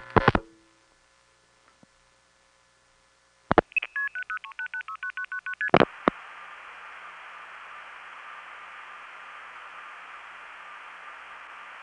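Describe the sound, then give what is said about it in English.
Telephone keypad tones are dialed as a rapid run of about nine short beeps at changing pitches. Clicks come before and after, then a steady hiss continues to the end. “What number are you dialing?”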